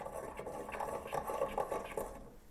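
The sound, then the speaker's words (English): Spices being ground while cooking red beans and rice, a steady rhythmic scraping and crunching with repeated strokes at moderate volume, no talk over it. “That's me grinding spices.”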